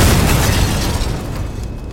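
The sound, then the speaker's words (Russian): A huge explosion bursts behind a man on a cobbled street as a sparking cloud rises: a loud, dense rumbling roar that fills the whole clip and slowly fades toward the end. “за его спиной взвилось огромное искрящее облако и раздался взрыв.”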